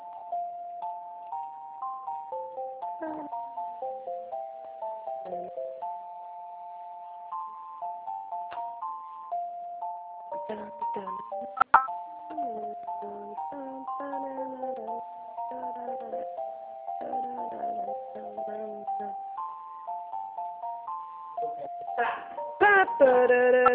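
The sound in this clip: Telephone hold music plays as a simple, thin electronic melody of steady, bright tones looping on and on, with a single sharp click partway through.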